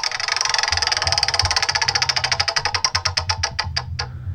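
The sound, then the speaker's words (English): A prize wheel spins with rapid clicking that gradually slows, the ticks spreading farther apart until they stop near the end. A low steady hum runs underneath. “we're gonna spin the wheel of Immaculate Songs to see what you have to sing”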